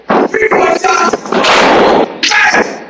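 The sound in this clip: A drop kick lands in a wrestling match, a loud, sharp thud among several other forceful impact bursts over crowd noise, with a raised voice shouting in the mix.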